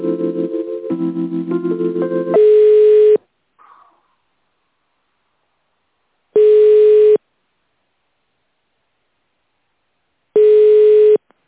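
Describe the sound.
Telephone line tone while a call is being transferred: a short run of stepped electronic tones, then three long, steady beeps at regular intervals with silence between them.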